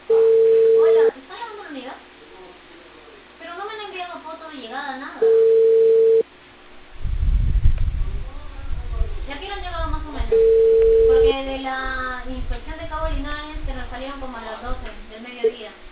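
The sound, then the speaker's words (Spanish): Ringback tone of an outgoing phone call in Peru, placed by a cable company to a customer about a reported cable fault: three steady mid-pitched beeps about five seconds apart, with voices and other sound between them. “Aló, buenas tardes, señor. Estamos llamando de Cable Perú por la avería reportada de cable.”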